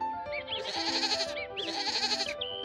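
Goats bleating on a pasture: two long, quavering, high-pitched bleats in close succession, fairly faint, with no voices.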